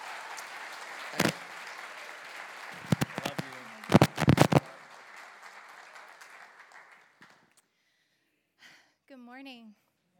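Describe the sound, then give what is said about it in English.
A church audience applauds a speaker welcomed to the stage: steady clapping with a few sharp, louder claps near the start, fading away after several seconds, followed by a brief stretch of a voice speaking. “Just put your hands together for her, would you?”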